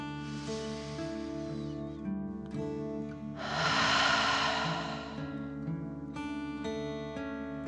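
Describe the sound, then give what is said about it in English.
Deep breaths, drawn in and pushed out through the mouth as if breathing fire, make two long breathy rushes over sustained soft tonal music. The second rush is louder. “and then out through your mouth, pretending you are breathing fire. Ready? Deep breath in and out.”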